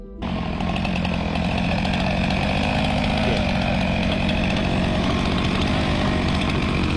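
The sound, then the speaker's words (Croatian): Chainsaws roar as saws cut a swimming pool into Antarctic ice at a research station, one loud, steady, high-revving engine drone running without a break from start to finish. “članovi ekspedicije u istraživačkoj stanici Casey koristili su pile i bager kako bi sebi napravili svojevrsni bazen za plivanje”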